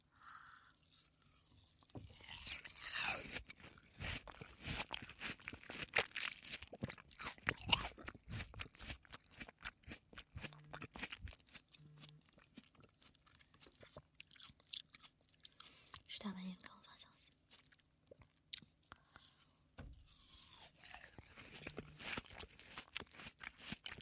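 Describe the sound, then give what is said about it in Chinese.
Someone bites into chilled watermelon, with faint crisp crunches and wet chewing that repeat many times in an uneven rhythm. “西瓜，吃两口。冰镇西瓜 YYDS。”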